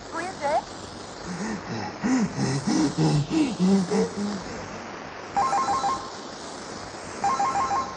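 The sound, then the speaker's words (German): A telephone ringtone sounds in two short, bright electronic bursts near the end, after a stretch of voice at the start; it is moderately loud against a steady background hiss. “Hey, Telefon! Hollywood ruft an!”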